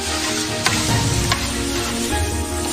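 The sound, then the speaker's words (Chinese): Chilies, Sichuan pepper, ginger slices and bean paste stir-frying in a wok give a dense, steady, loud sizzle, broken by a couple of brief stirring clatters. “将新鲜鸡肉切块，过水去沫，再把辣椒、麻椒、姜片、豆瓣酱一起炒香，”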